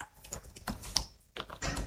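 Typing notes on a computer keyboard produces a quick, irregular run of sharp plastic key clicks, fairly faint, with brief pauses between bursts and no talking.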